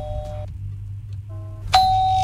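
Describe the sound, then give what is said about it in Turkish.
A doorbell rings with a few electronic chime tones: a softer pair of notes, then a louder, sustained ding that holds to the end over a low, steady hum. “Kapı çalıyor. Rashford mu geldi? Vallahi. Baksana bir. Vallahi kapı çalıyor.”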